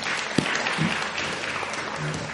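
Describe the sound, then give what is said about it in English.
Audience applause in a church at a catered gathering after a speaker's call for a round of applause: a steady, dense wash of clapping holds at an even loudness throughout, with one sharper clap standing out early. “And just, why not? Round of applause.”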